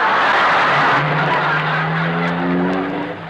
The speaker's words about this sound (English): He drove right into the lobby. Jack, look! Well, it serves him right. He got stuck in the revolving door.